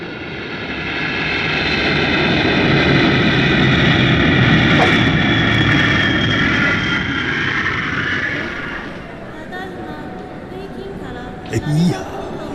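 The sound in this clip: Airplane engine roar at Narita Airport, a large airport: a loud, sustained rushing drone with steady whining tones that fades after about eight seconds, leaving a quieter rumble and a brief thump near the end.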